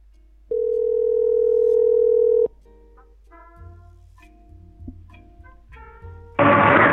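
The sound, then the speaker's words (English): A telephone dial tone holds steady for about two seconds, then a series of short dialing tones follows as a call is placed to a home. A loud, noisy burst ends the sequence. “We're going to call Elena's house, where her grandmother usually answers.”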